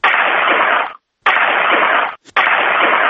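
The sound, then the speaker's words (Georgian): Three volleys of an honorary gun salute fired by a ministry of defence honour guard at a funeral. Each is a loud, harsh burst lasting nearly a second, separated by short silent gaps. “აქ არის ადამიანები, რომლებიც საპატიო გასროლას მოახდენენ მის მიწაში. ჩვენი უნდა გესმოდეთ, უნდა გესმოდეთ ახლა.”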